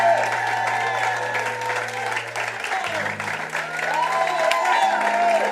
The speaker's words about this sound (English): put your hands together and welcome to the microphone Richard Dauphin as he comes to bring the word of the Lord